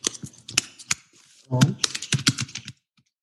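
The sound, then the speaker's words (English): Keystrokes clack on a computer keyboard as someone types, in quick, irregular bursts of clicks with a brief lull midway, then stopping before the end. “Okay, I'll just type one in.”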